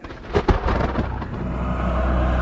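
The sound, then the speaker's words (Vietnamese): Thunder sound effect from an audiobook: a loud crack that peaks twice in quick succession near the start, then settles into a steady, broad rumble that holds to the end. “Dạ xoa Tỳ Cung Thiên gào lên một tiếng thấu trời, được phụ họa bởi những trận sấm chớp vô hồi tận.”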